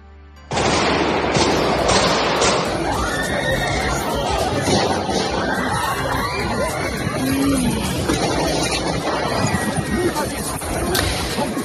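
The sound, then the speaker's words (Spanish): Gunfire from terrorists shooting visitors at Crocus City Hall, a shopping and concert venue outside Moscow: many sharp shots crack through a dense, loud, continuous wash of noise that lasts the whole clip. “Lo que oyes son unos terroristas disparando uno a uno contra visitantes inocentes de un centro comercial, el Crocus City, en las afueras de Moscú”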